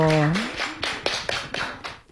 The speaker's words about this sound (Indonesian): Oke, kita kasih tepuk tangan untuk Semapor dari MTS DDI Kelurahan Baru.